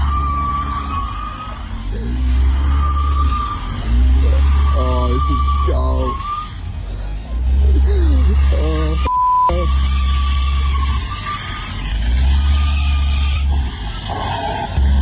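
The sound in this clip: Car engine revving in a car park as a man drives off in a stolen car, with several loud, sustained bursts of low rumble separated by short lulls and a brief beep partway through.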